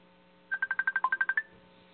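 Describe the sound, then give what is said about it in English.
Telephone keypad tones dialing a long-distance number beginning with 1 and 215: eleven quick, evenly spaced beeps in a steady run, clear and alone with no talk. “Okay, dial 1, right? And then would you go and dial 1 and it's 215?”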